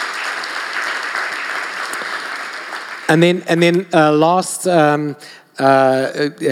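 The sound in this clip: Congregation applauding during a Sunday morning church service in Mandela Bay: a dense, steady wash of clapping that stops abruptly, after which a voice starts speaking.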